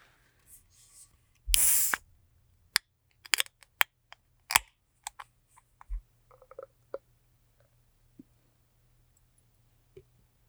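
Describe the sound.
A beer, Total Consciousness, being cracked open: a short sharp hiss followed by many scattered small clicks and taps in an otherwise quiet setting.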